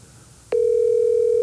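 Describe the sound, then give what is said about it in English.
A telephone tone on an unanswered call: a steady, mid-pitched tone starts abruptly after a short quiet stretch and holds unbroken and loud to the end. “She's not going to answer. She will. She knows. She knows better. In the name of Jesus, woman, pick up.”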